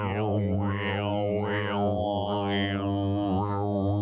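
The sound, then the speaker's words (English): A human voice imitates a didgeridoo, the Australian wooden instrument, holding one continuous low buzzing drone for about four seconds while its tone shifts in rhythmic wah-like sweeps. “It's an Australian instrument that sounds like this.”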